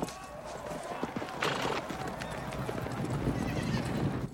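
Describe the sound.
Horses gallop with riders during a battle charge in a film, their hooves making a dense, continuous clatter. A horse whinnies partway through.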